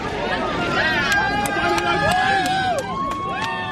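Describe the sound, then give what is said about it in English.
Crowd noise at a marathon finish line in Bethlehem's Manger Square: dense, continuous chatter and calls from many people, with individual voices rising over the busy babble. “And here at the crowded finish line in Bethlehem's Manger Square, and we haven't seen this many visitors here in Bethlehem, a town so dependent on tourism, for a long time.”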